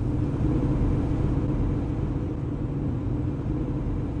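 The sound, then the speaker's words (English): A car drives into a canyon in the high desert of northeastern Utah, a steady low engine rumble with road noise holding an even level throughout, no voices. “Driving into the area's famous prehistoric rock art gallery, 9 Mile Canyon,”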